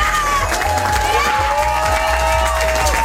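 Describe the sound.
Crowd cheering and clapping at a village celebration in Delingsdorf: a loud, unbroken roar of applause and shouting, with shrill whoops rising above it throughout.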